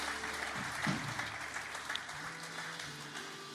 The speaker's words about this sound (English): Why don't you put your hands together for Pastor Ben?